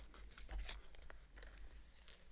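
Crinkling and tearing of the outer product packaging around a Kegel exerciser with a squeeze pillow: a few faint, dry, crackly rips and rustles in close succession, with no talking.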